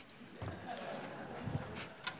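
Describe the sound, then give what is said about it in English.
A door is closed, giving a faint, soft thud followed by a brief click against a quiet background. “I'll tell you that I think, well, after I close this door,”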